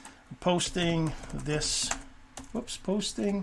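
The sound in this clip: Typing a post on a computer keyboard: light, rapid key clicks running beneath continuous talking throughout.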